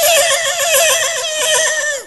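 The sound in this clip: A human voice imitates a horse neighing: a loud, shrill whinny that quavers rapidly up and down for about two seconds and then tails off, with no other sound.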